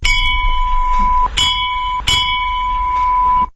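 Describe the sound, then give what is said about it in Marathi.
A bell rung very loudly, struck about three times so its bright, sustained metallic ring swells again with each blow and keeps sounding without pause before cutting off. “काय रे, तुला शाळेची घंटा वाटली की ढोल एवढ्या जोरात बडवायला?”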